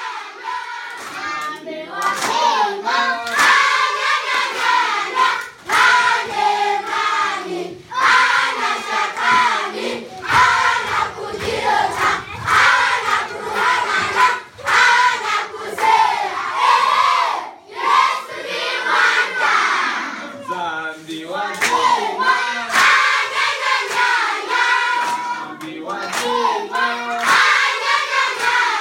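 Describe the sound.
A crowd at a church mission group meeting shouts and claps in a loud, continuous wash of many voices, with hand claps running throughout and the energy surging and dipping.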